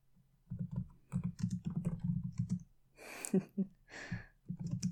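Rapid typing on a computer keyboard: many light, irregular key clicks in quick bursts, with a brief pause partway through before the tapping resumes.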